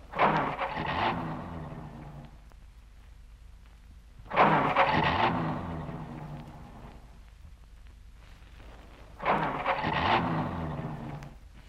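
A car engine with a faulty carburettor and a flooded motor cranks three times without starting, each burst of rapid, churning starter-motor chugging lasting a couple of seconds before dying away into a quiet pause.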